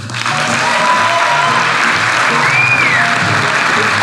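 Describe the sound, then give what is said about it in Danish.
Studio audience applause welcomes a guest, a Danish parliamentary candidate and acting minister, onto a talk show: dense, steady clapping that stays loud and even for the whole stretch. “Giv en stor hånd til Tommy Ahlers.”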